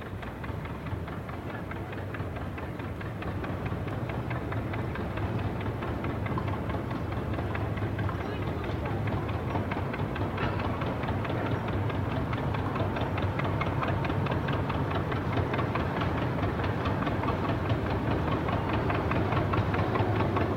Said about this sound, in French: Écoutez plutôt les bateaux sur la Sumida.